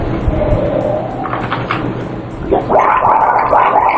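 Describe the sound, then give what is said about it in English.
A person gargles with a wet, bubbling rattle, soft and noisy at first and turning stronger and more bubbly toward the end. “More gargling there.”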